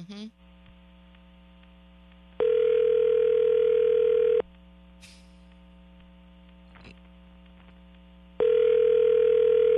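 Ringback tone on an outgoing phone call: two steady two-second tones separated by a long pause, over a constant low electrical hum throughout, with no talking.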